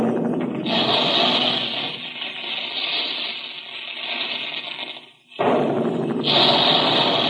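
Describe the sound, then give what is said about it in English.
Big guns firing as a sound effect in a cereal advertisement: a loud, sustained booming roar that dips into a brief gap near the end and then surges back at full strength. “There go the big guns now”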